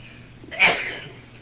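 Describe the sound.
A single sneeze interrupts a religious lesson: one sharp, breathy burst that trails off quickly over a low, steady background hum.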